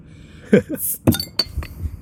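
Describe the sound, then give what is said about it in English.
A cold beer is opened with a few glassy clinks and knocks and a short, bright fizzing hiss between them. A faint cough-like sound follows. “Are you ready to crack open a cold one?”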